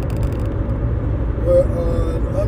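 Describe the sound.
Low engine and road rumble inside a moving car: a steady, droning hum with a faint rattle above it and no talk.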